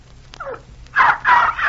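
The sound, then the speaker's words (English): Dog yelping: three short, high, strained yelps in quick succession, each louder than a faint cry just before them, over a low steady hum. “Then when I give the signal, he starts running around yelping and holding his paw.”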